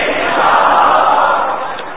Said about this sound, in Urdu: آواز کیوں دب گئی آپ کی؟ ارے اور زور سے نعرہ لگاؤ.